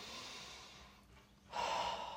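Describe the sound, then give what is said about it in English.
A slow, deep breath taken to calm down before a golf shot: a faint, airy stretch of breathing that fades, then a fuller, louder breath toward the end. “when you're about to play your next shot, take a slow, deep breath again.”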